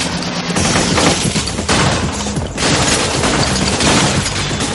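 Heavy gunfire fills a film action scene in The Matrix as Neo advances between columns under a hail of bullets and falling debris, loud continuous bursts of shots and crashing impacts that barely let up.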